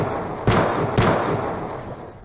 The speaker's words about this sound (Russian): Он стрелял с одной руки, по-ковбойски.